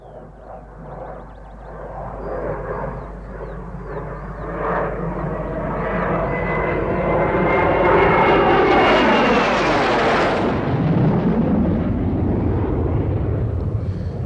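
Airplane engine noise at an airport: a deep roar swells steadily over several seconds, and a whining tone sweeps downward near the end while the roar stays loud.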